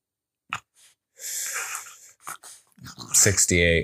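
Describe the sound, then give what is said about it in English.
An agitated bulldog makes wheezy snorts and grunts in uneven bursts, growing louder toward the end, with a rougher growl-like sound in the final second. “Our dog is just going nuts. He's going nuts.”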